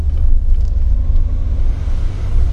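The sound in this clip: From inside a moving car comes a steady low road rumble with a soft, wind-like hiss, fairly loud and even throughout, with no voices.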